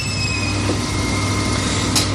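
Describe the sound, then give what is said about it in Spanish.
Freezer motors hum steadily and loudly, a constant low drone with a faint high-pitched whine layered above, unchanging for the whole stretch. “Ahora oímos más el motor de los congeladores.”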